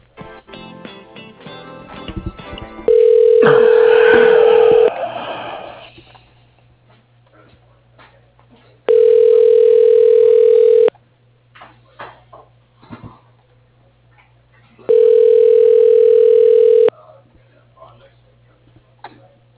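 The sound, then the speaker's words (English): Telephone ringback tone as an office call is transferred to voicemail: three long, even, mid-pitched tones of about two seconds each, separated by roughly four-second gaps filled with faint clicks and background noise. “I'll put you through to his voicemail.”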